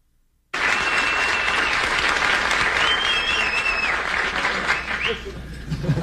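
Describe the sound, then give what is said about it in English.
A studio audience gives a standing ovation for the Apollo 13 crew on a 1970 late-night talk show. Loud, dense, sustained applause bursts in after a brief silence and continues steadily to the end. “If you fellas would, that is the first time since I've been doing this show in 7.5 years that I've seen an entire studio audience get to their feet and applaud.”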